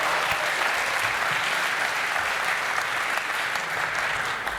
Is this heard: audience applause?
yes